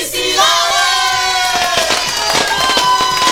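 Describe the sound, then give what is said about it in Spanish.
Firecrackers burst at a birthday celebration, many sharp, loud pops crackling in quick, irregular succession over a busy background of voices and tones. “Cuetillos por aquí, cuetillos por allá.”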